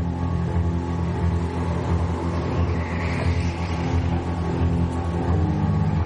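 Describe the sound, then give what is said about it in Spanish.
A go-kart drives laps around a circuit, its engine a steady, unbroken drone with a low, buzzing hum that holds at an even loudness throughout. “En un circuito, Jesse conduce un kart. Recorre el circuito ido. Sigue dando vueltas.”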